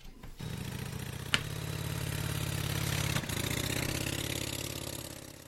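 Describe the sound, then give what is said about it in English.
A Harley Davidson 1200 Sportster motorcycle engine idles with a deep, loping throb, held steady and fairly faint, broken by a brief sharp click. “That's a motorcycle. It was actually a Harley Davidson motorcycle. And if you're really interested, it was a Harley Davidson 1200 Sportster.”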